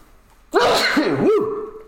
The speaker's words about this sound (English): I felt that one, God bless you. Yeah, I'm doing like the dad sneezes. I don't know why when you become a father your sneezes become like exponentially louder and more intense